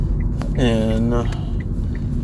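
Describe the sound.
A low, steady rumble from a car being driven, with a voice briefly heard over it.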